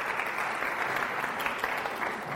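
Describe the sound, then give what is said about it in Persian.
An audience claps together in a steady, even burst of applause that continues throughout. The clapping is fairly quiet and has no speech over it. “باریکلا، به افتخار خودتون دست بزن.”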